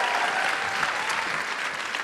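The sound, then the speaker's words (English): A live show audience gives a big round of applause for a guest: a loud, dense wash of clapping that holds steady from start to finish. “Big round of applause for Sook.”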